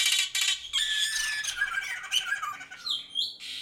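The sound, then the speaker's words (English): Forest birds in Java, Indonesia, give loud, harsh squawks mixed with shrill, gliding whistled calls. The calls come in overlapping bursts and tumble one after another with no pause. “Wonderful sounds of the forests of Java in Indonesia.”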